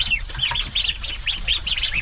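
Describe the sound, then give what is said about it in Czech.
Ducks on a rural farmstead chatter just after being fed. Many quick, nasal calls overlap in a steady, moderately loud stream, with no talking. “Lada Wagnerová právě nakrmila kachny”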